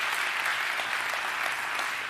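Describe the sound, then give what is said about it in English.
A church audience claps in praise during a service: dense, steady applause with no breaks, fairly soft and even throughout. “I want you to give the Lord a hand clap of praise wherever you are right now if God has been good to you”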